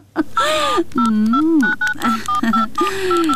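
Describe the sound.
Touch-tone keypad beeps as a phone number is dialed for a free call: a series of short, steady tones pulsing in quick succession over a louder, gliding melodic sound.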